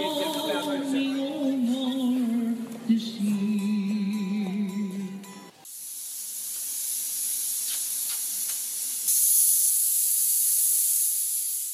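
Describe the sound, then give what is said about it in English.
A pressure cooker hissing steam: a loud, breathy, high-pitched hiss cuts in abruptly midway after tonal music, holds steady and then grows louder near the end. “That's just a pressure cooker, Ethan. There's no need to get all started.”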